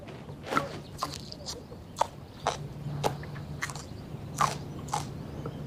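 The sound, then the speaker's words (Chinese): Someone biting and chewing wild garlic, heard as a string of faint, crisp crunches at an irregular pace over a low, steady hum. “这个地方长野蒜，看着不太对劲啊！我先尝一尝，万一有毒呢？”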